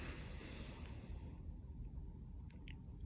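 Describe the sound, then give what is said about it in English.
A person yawning, a soft, long breathy rush of air that is airiest through the first half and then thins into a low, steady breath, with no talking. “I'm yawning like crazy right now”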